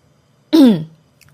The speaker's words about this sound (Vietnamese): Mặt của tôi lúc này hơi đỏ, hắng giọng, cố làm ra vẻ nghiêm túc.